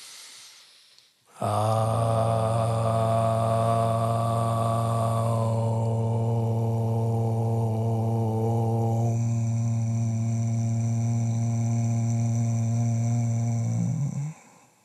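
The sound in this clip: Voices chant a long, steady drone on one exhale during a meditation session, shifting through the syllables ah, oo and mm. The low, humming tone holds nearly unbroken and then fades out.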